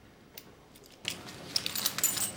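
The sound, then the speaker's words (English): Keys clink and jingle as they are slipped into a pocket: soft metallic rattles and taps after a near-silent start, faint and with no voices. “She thinks long and hard before popping the keys into her own pocket.”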